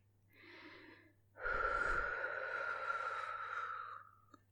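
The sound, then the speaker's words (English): Breathing out, a person's long exhale: a soft, shorter breath first, then a louder, steady airy outbreath lasting about two and a half seconds that trails off into quiet. “Now breathe out for me again.”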